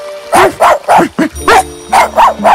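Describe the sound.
A small dog barks eight times in a quick, uneven run of sharp, high yaps with no other sounds.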